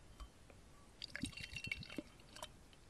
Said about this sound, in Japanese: では、注いでいきます。